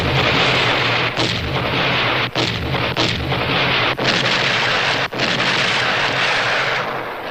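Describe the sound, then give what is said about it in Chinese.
Gunfire and artillery explosions in a battle near a village under heavy enemy shelling: a loud, continuous roar of dense blasts and shots with a few brief dips, and no voices. “停止射击。”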